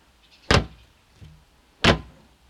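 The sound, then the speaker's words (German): The lid of a new wheelie bin closes, giving two loud, dull plastic thuds about 1.3 seconds apart with a fainter knock between them over quiet background. “Und wie eine neue Tonne schließt. Und dann wibbelt der Deckel nach”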